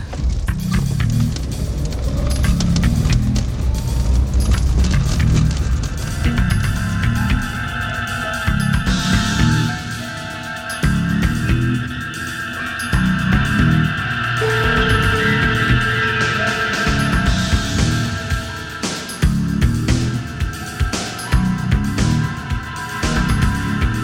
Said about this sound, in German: Gut, dann fahre ich dich jetzt nach Hause.